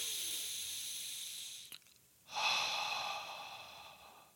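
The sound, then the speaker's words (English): A deep breath drawn in through the nose: after a faint steady hiss and a tiny click, a single long airy rush swells abruptly and then slowly tapers away. “right palm at the center of your chest, left palm over your belly, and then breathe in deeply.”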